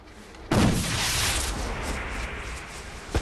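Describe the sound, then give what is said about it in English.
A flare gun is fired into the air with a sharp, loud bang that turns into a sustained rushing whoosh and slowly fades. “Lex aims a flare gun into the air over the drop and fires.”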